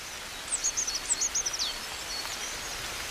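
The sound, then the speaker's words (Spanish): A coal tit sings in winter, a short rapid series of thin, high-pitched notes that stops after about a second, faint over a steady rustling background. “En pleno invierno, con el frío, un carbonero garrapinos está cantando como anticipándose a la primavera.”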